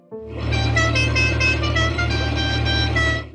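An auto-rickshaw horn blaring in one long, steady, loud honk over a low engine rumble.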